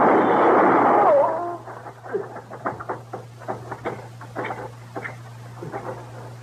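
A gunshot in a western shootout lands as one loud, harsh burst with a brief whining tone as it fades. A run of soft, scattered clicks and light thumps follows.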